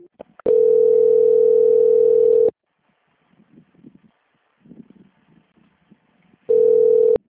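A telephone line tone plays while a call is transferred. One steady, mid-pitched beep lasts about two seconds, followed by a few seconds of near silence with faint murmurs, then the same tone returns and is cut short.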